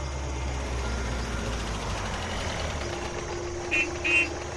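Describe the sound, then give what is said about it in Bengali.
A Fiat car rumbles low and steady as it pulls up outside a gate, then its horn gives two short, bright honks near the end. “একটা গাড়ি থামলো আমাদের গেটের বাইরে, ফিয়াটের horn, চেনা শব্দ।”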